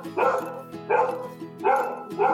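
A dog barks at home, four loud, harsh barks with short pauses between them over a steady low background hum, and no voices.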